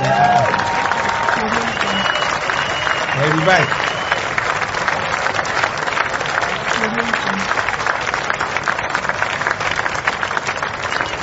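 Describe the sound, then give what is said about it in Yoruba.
Sustained applause from many hands, a steady, dense wash of clapping that holds at an even level throughout, with a voice briefly audible over it near the start. “Wọ́n ti pàtẹ́wọ́ fún yín.”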